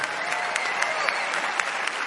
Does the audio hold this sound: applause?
yes